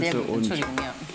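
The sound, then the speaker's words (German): Stirring and sizzling of a mix of several mushroom varieties frying in a pan, as they begin to brown. A steady, dense crackle runs throughout, with scraping stir strokes passing through it. “Also wir haben jetzt verschiedene Pilze dabei hier. Umrühren? Umrühren, ja. Jetzt bekommen wir langsam hier Farbe.”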